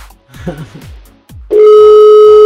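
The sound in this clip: A telephone dial tone sounds as a call is placed. Brief talk comes first, then a loud, steady, unbroken tone holds alone for about a second.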